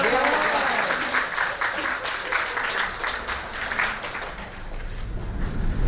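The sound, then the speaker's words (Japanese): A church gathering breaks into audience applause, many hands clapping in a loud, dense patter from start to finish, with talk mixed in beneath the clapping. “こちらのお母様、拍手でございますよ。”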